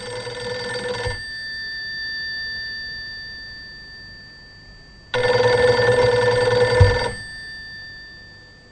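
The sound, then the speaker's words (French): A telephone rings during a phone call with two long electronic buzzing rings separated by a quiet gap of a few seconds. Each ring is a steady, bright tone, and the first begins already underway. “Je vais passer un coup de fil à mon supérieur.”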